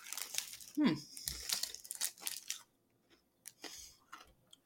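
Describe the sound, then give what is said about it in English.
Chewing on a toffee caramel bar covered in chocolate, with soft crunching, smacking bites and crinkling between a few faint pauses, all quiet and close to silence at times. “Get ASMR of me eating. If you don't like it, please turn this episode off.”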